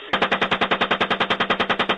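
Automatic machine-gun fire during a military combat engagement: one long, unbroken burst of many evenly spaced, loud, sharp shots in a rapid steady rhythm, with no talk over it.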